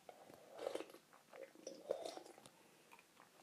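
Faint, wet chewing of mint chewing gum: soft irregular smacks and squelches come in a few uneven bursts, with no voices.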